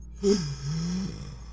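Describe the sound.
A deep breath is taken and held: a quick, gasping inhalation, then a low, strained voiced hum as the air is held.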